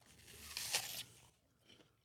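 A single crisp crunch of teeth biting into an apple, loud and brief, followed by fainter soft chewing.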